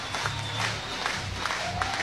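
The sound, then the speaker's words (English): A lively crowd roars at a college sports event in Oklahoma. Broad, continuous cheering and scattered clapping hold at an even level throughout the short stretch. “Crowd is alive.”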